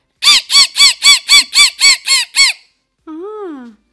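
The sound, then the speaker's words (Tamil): A human voice imitates a parrot's screech with nine loud, harsh squawks in quick, even succession. After a short pause comes one longer, wavering call. “இப்போ பாத்தீங்கன்னா கிளிப்பிள்ளைன்னு சொல்லுவாங்க, அந்த கிளி எப்படி கத்தும்னா,”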